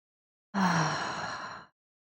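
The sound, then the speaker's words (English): A single audible sigh released to ease tension, a breathy exhale that starts with a low voiced edge and fades after about a second, heard alone in quiet. “Any point you need that audible breath to dissolve any amount of tension, just allow that audible breath to come back into your practice mindfully.”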